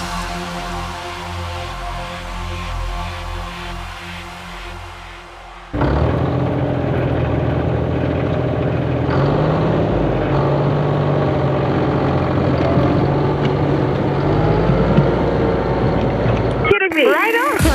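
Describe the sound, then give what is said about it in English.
Bulldozer engine running, a steady loud rumbling drone that shifts abruptly partway through to a heavier, rougher roar and continues without pause, with no talking. “It certainly is a bulldozer I've got, but I will take tractor digger for that.”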